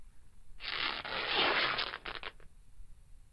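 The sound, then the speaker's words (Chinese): Stockings being torn open make a sustained raspy ripping sound, followed by a few short, sharper tears as it ends. The sound is fairly quiet, with no talking. “那还有另外一条的丝袜也可以撕开哦，你要不要试试看？”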